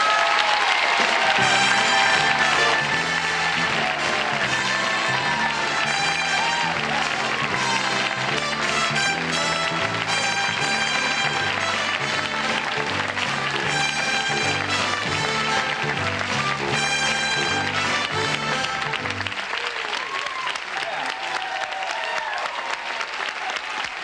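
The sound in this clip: Loud, sustained applause from a talk-show audience welcoming Gene Kelly, a dense, steady roar of clapping that holds for over twenty seconds and eases slightly near the end.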